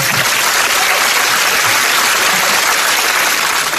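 Audience applause forms a dense, even wash of clapping that holds at a steady, fairly loud level from start to finish, without pauses or swells.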